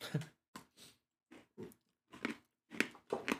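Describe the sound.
Biting and chewing frosted gingerbread: a series of short, crisp, crunchy bursts with brief gaps between them. The sound is faint and close, with no talk.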